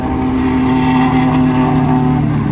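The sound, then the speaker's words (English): Loud, steady engine drone from a Ferrari 458 Italia sports car on a race circuit during a safety car period, a continuous harmonic roar that holds an even level throughout with no break. “That's a Ferrari 458 Italia.”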